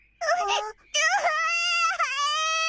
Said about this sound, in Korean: 왜 울어? 울지 마.